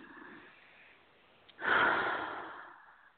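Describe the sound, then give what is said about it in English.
A nice deep breath: a sharp rush of air swells suddenly, then tapers off slowly over more than a second, heard alone without any talk. “And a nice deep breath.”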